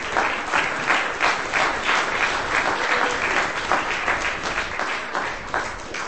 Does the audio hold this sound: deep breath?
no